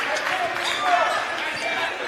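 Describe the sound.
A basketball being dribbled on the court during a high school game, Sylacauga vs. Gadsden City: bounces sound under steady crowd noise and a commentator's voice.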